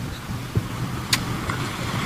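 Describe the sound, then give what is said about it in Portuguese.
A car driving past over potholes in a street: a steady low road rumble broken by two brief knocks as the wheels hit the holes. “O veículo passou aqui, ó. Cabe a roda direitinho.”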